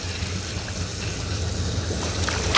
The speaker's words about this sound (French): Donc voilà, on observe ce qui se passe sous l'eau. Donc mettez la tête sous l'eau, c'est parti. D'abord, je commence par la grande balle.